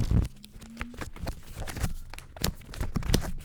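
Paper rustling and tearing as a multi-layered paper envelope is unwrapped: continuous crinkling broken by many sharp crackles and rips, fairly faint, with no talk.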